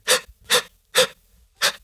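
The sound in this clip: Heavy breathing, imitated by a man, of the Skynet creator holding a bomb trigger in Terminator 2: four loud, breathy rasping breaths in a steady rhythm with short silent gaps between them.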